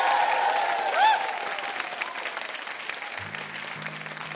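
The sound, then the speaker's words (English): An audience gives steady applause for a VIP guest on a quiz show. A voice speaks over the clapping at first, and music comes in near the end. “Let's hear it one more time for our fabulous VIP, Delia Ephron.”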